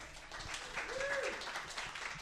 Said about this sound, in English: Good applause. Yeah, the hello got some applause.